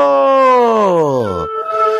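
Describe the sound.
A wolf howl sound effect: one long, loud, harmonic howl that slides steadily downward in pitch, then a second, steadier held tone.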